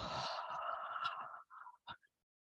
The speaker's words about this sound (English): Breath in. Open your mouth and let it go.